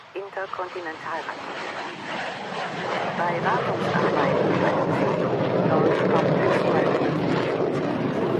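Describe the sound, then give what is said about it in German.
A Tornado military jet on a practice approach passes overhead, its engine roar building from a low rumble into a loud, sustained noise after a brief stretch of talk at the start. “Das war ein Tornado, das war kein Flugzeug von uns, der jetzt gerade drüber ist. Das war von einem anderen Flugplatz. Die machen schon mal gelegentlich Übungsanflüge.”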